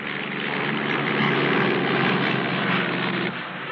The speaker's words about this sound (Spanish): ¿Habéis oído? ¡Es el avión!